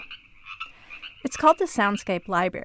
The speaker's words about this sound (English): That's a Sierran tree frog,